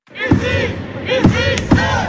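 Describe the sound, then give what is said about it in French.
A crowd of supporters chants and cheers loudly at a celebration on a town hall square in Metz, awaiting their returning championship women's team. The mass of voices is sustained and punctuated by a few heavy thuds. “Et pour patienter avant l'arrivée des championnes, les supporters donnent encore de la voix.”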